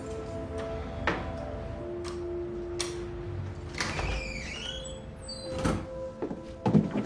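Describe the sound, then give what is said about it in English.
Keys work an apartment door lock and the door opens: faint metallic ticks and clicks, then a brief squeaky creak midway, followed by a few soft knocks, all quiet with no talking. “Setting the boxes down in the hall, he places the keys in the lock and enters.”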